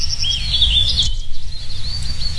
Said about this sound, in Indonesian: lihat deh, di sini masih banyak burung ternyata. Mungkin karena banyak pohon ya.